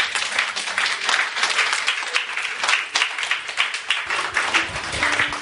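A church audience applauds to acclaim the Lord during a sermon. Dense, steady clapping from many hands continues evenly from start to finish with no speech over it.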